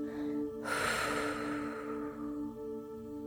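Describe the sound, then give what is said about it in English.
A single long exhale, breathy and rushing, bursts in suddenly and fades over about a second. A steady sustained tonal drone plays beneath it throughout. “in that energized glow of oxygen, breathing out the toxins”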